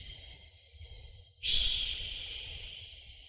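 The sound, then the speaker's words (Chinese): Slow, long exhalation during a breathing exercise: after a quieter breathy stretch, a strong airy hiss starts abruptly near the middle and tapers off gradually as the breath is drawn out. “再进行缓慢的呼气，呼的时候越慢越好，长呼”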